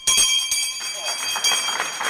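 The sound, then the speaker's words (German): A stock exchange bell rings as a vegan food company's founder opens its market debut. Its bright, sustained high tones carry throughout under bursts of crowd noise and voices. “dennoch läutet Vegans-Gründer Bredak, der früher Manager bei Daimler war, wie er sagt, erleichtert und glücklich die Börsenglocke.”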